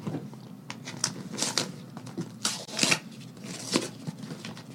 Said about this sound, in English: Are these getting edited out, the whole tearing open of the envelope? It's dramatic.